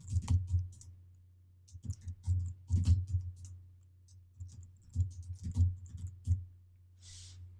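Typing code on a computer keyboard: many quiet clicking keystrokes in irregular bursts with short pauses between, over a low steady hum.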